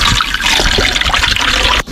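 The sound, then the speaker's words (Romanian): Water pours into a 2-litre pump sprayer to mix an aspirin solution for spraying tomato plants. A steady splashing rush runs almost unbroken for nearly two seconds, then dips briefly just before the end. “Și voi pune apă. Deci 1 litru de apă la o pastilă de aspirină.”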